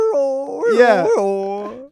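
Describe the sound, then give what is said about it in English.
A human voice imitates a cartoon dog howl, one loud, sustained two-second note that wavers and wobbles in pitch through the middle before trailing off. “It sounded like a cartoon dog. Yeah, my last attempt was rough.”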